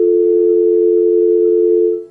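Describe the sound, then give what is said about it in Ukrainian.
Telephone line tone on an incoming call, a single loud, unbroken mid-pitched hum holding steady for about two seconds before fading away. “На апаратурі ми приймаємо телефонний дзвінок, слухаємо зв'язок.”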